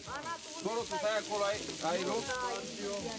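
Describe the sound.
Sizzling of mici, a typical Romanian barbecue dish, cooking on a griddle: a steady, fairly quiet hiss and crackle that runs beneath people talking.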